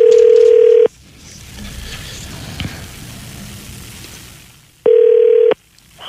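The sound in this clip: Telephone line tone on an outgoing call: two loud, steady, mid-pitched tone bursts, the first near a second long and the second a little shorter, separated by a few seconds of soft hiss.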